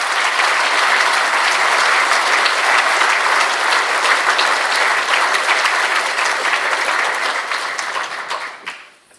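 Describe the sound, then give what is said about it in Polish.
Audience applause at a congress gathering, with people clapping to thank one another: dense, steady clapping that holds loud for about eight seconds, then thins and fades out at the end. “Podziękujmy sobie wzajemnie klaszcząc”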